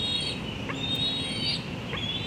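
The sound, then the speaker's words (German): An eagle chick calls from its nest high in a tulip tree in northeast Washington D.C. in late May, giving a few thin, high-pitched whistling peeps over a steady background hiss. “Es ist Ende Mai und im Adlerhorst hoch oben in einem Tulpenbaum im Nordosten von Washington D.C. zetert ein Küken.”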